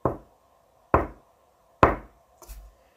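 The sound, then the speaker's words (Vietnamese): High heels click on the ground inside a large, fog-filled factory. Three sharp, evenly spaced clicks ring out alone, followed by a softer, doubled tap. “nơi sương dày nhất lại vang lên tiếng giày cao gót gõ trên mặt đất.”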